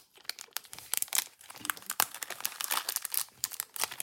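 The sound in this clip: A small piece is torn off a roll of sugar candy from an advent calendar. Faint crinkling and tearing come as many quick, crackly bursts that run through the whole clip.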